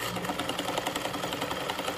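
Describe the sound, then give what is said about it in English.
Sewing machines run steadily as locals stitch fabric masks for medical workers, giving a continuous fast mechanical whir with a fine rapid rattle throughout. “locals have put sewing machines to work to make different types of masks for local medical professionals.”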